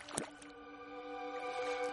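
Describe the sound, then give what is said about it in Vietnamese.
Oars dipping into murky canal water from a small wooden sampan: a sharp splash, a second lighter one, then soft gurgling and dripping strokes over a steady tonal background. “Tiếng mái chèo khu nước róc rách”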